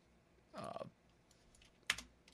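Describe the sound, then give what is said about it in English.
Faint typing on a computer keyboard while entering a search: a short cluster of quick keystrokes, then a pause and a few isolated sharper taps. “Okay, baptism gifts, or I'll type in adults, adult.”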